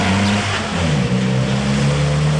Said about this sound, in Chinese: 突然一阵马达的轰鸣声打破了校园里的宁静，几辆警车高速闯了进来